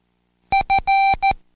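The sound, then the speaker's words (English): Four electronic beeps in a Morse-style rhythm: two short tones, then one clearly longer tone, then a final short one. They share the same steady pitch, are crisp and fairly loud, and are heard alone against silence. “Now tap the rhythm of his nervous foot. The word fail is the only long beep in the sequence, and it goes, did I fail it?”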